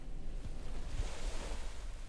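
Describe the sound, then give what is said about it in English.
Waves washing on a beach, a soft, faint and steady surf wash with no distinct breaks standing out. “A beach. This is exactly where I need to be on my journey.”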